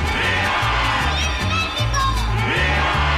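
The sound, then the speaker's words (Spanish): A crowd shouts a patriotic Viva México cry for Mexico's national month, a loud, dense roar of many cheering and whooping voices that carries on without a break over a steady low tone. “Y desde la trinchera donde nos toque luchar, gritamos ¡Viva México!”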